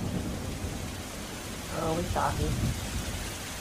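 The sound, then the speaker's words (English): Steady rain and a thunderstorm's low rumble form a continuous, moderately loud wash of noise that swells slightly midway and carries on throughout. “the weather hasn't gotten better. If anything, it's gotten a little worse. The mood kind of takes a storm as it rolls in. It's always raining in Jasper Vale.”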